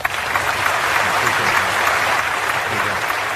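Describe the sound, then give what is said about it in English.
A studio audience applauds with steady, dense clapping at an even loudness for a few seconds, with no pauses or swells. “Studio audience seems very happy with you for saying that.”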